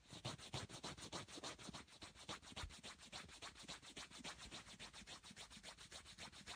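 A nail file rasps against fingernails in many rapid, even back-and-forth strokes, a steady scratchy rhythm that stays faint throughout with no voices over it.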